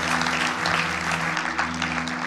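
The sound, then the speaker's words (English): Conference audience clapping as an offering to the Lord Jesus: sustained, dense applause held at a constant level over a low steady tone, without pause. “Come on, give the Lord Jesus a clap offering.”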